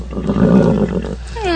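A horse whinnies near the end, a short high, wavering call that follows a dense, rumbling stretch of low noise.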